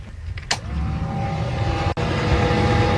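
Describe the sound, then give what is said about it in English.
Steady whirring hum of a boat's engine-compartment blower fan, run before starting a gas flathead Atomic 4, a marinized tractor engine. A sharp click opens it, then the even hum holds with a sustained tone and one brief dropout. “Get the fan going because it's gas.”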